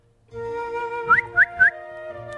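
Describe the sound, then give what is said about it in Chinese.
A person whistles to a robin in a garden: three short, rising chirp-like whistles in quick succession over soft, sustained background music. “迪克森吹了吹口哨，知更鸟转过头看着他”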